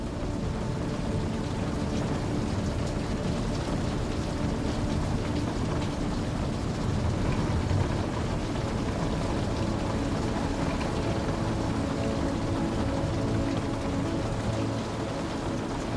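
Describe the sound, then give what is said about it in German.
Steady rain patters in a dense, unbroken hiss, holding the same moderate level throughout with no gaps or gusts. “Das monotone Prasseln des Regens begleitet dich stetig und beständig. Lausche eine Weile.”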